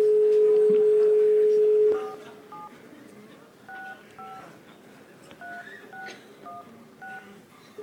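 Telephone dialing: a steady dial tone holds for about two seconds, then gives way to a series of short two-note touch-tone beeps, evenly spaced with brief gaps, as a number is keyed in.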